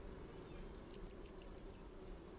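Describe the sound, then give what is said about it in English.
High, thin song of a blackpoll warbler, a tiny songbird of boreal forests: a rapid, evenly spaced series of many very high-pitched notes that grows louder through the middle before stopping, heard alone over faint background hiss. “Take the black pole warbler, for example. Here's its high-pitched song, courtesy of the Cornell Lab of Ornithology's Macaulay Library.”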